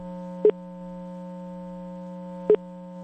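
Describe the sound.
A telephone ringing tone sounds while a call is being placed. It is a steady, low buzzing tone that runs throughout, broken by two short, brighter blips about two seconds apart.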